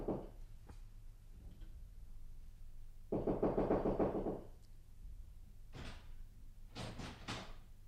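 Knocking on a locked door, heard as a few quiet, dull raps clustered toward the end over a faint background.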